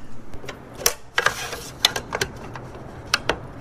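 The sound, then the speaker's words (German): Mechanical clicks and knocks come from a release mechanism as two levers are pressed by hand and a weight drops. Several sharp, dry clicks and a brief rattle are spread unevenly over a few seconds. “Hier sind zwei Hebel, rechts und links, mit beiden Händen. Ich habe sie dran. Und jetzt? Drücken, damit das ausgelöst wird. Ja. Also drücken, um das Gewicht runterfallen zu lassen. Genau. Also ich drücke.”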